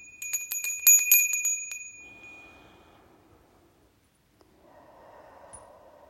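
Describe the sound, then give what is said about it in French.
A small bell rings to open a meditation, a bright, high chime with a shimmering tail that fades within about two seconds, followed by two slow, soft breaths. “au son de la clochette, je vais prendre deux grandes respirations.”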